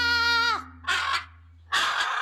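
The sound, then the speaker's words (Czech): A voice imitates a parrot squawking as it swings in a cage in a large hall: a sustained harmonic cry that drops in pitch, then two harsh, raspy bursts separated by a short gap. “Takhle mě vítal papoušek, který se houpal v kleci”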